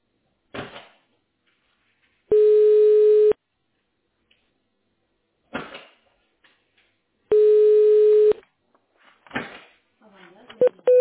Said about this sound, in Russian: Ваш звонок будет направлен на вашего персонального менеджера.